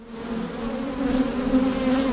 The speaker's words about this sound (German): Um die Holzkästen schwirren tausende Bienen.